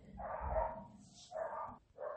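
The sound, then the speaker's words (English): Faint barking from the neighbour's dogs upstairs, left home alone and watching passers-by from a window. A few short bursts of yapping come with brief pauses between them. “the neighbor's dogs upstairs are home alone and looking out the window. So every time someone goes by, they're having a fit.”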